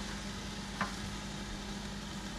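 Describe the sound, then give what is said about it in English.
Food fries in a pan with a faint, steady sizzling hiss and one brief pop partway through. “I can cook some meal. Oh yeah, cooking some meal. I'm scared that it's gonna pop into my face.”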